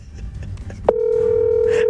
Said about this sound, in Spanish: Arranco a llamar al primero.